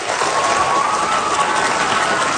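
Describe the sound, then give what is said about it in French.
Dense, steady applause from an audience thanking speakers who came up on stage, a continuous loud wash of clapping that holds evenly from start to finish. “Je pense qu'on peut les applaudir.”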